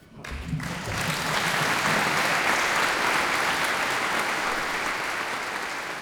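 Applause fills the Birgit Nilsson scholarship award ceremony on an August evening. The clapping starts after a brief moment, swells quickly and holds as a dense, steady patter through to the end.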